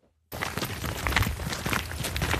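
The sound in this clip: Two foresters in sturdy shoes, carrying measuring instruments, set off into a forest. Their footsteps crunch dense and irregular, starting abruptly after a short silence and continuing without a break.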